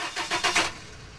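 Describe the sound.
A truck engine starts up and pulls away, a few rhythmic bursts of cranking and revving that then settle into a fading, faint hum, with no talk.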